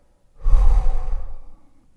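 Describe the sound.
A person breathes all the way out in one long, breathy exhale. It starts fairly strong, stays airy and unvoiced for over a second, then tapers off into silence.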